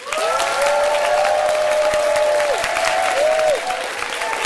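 Applause welcomes a live radio show at Contra Costa College in San Pablo: a dense, steady clapping from a crowd that holds at an even level throughout, easing slightly only at the very end.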